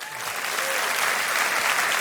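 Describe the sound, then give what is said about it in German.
An audience applauds at a radio award ceremony, a steady, loud wash of many hands clapping that holds at an even level throughout. “Applaus, Applaus, Applaus.”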